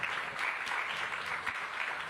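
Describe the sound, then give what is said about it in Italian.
Applause from an audience at the Festa dell'Unità, a faint, even patter of many hands clapping that swells slightly and dips without a break across the moment. “va bene che siamo alla festa dell'unità, però questo strappa l'applauso.”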